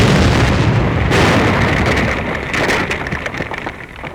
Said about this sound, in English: Here, next to a U.S. Treasury building and J.P. Morgan's offices, Buda set off a bomb just past noon on a Thursday.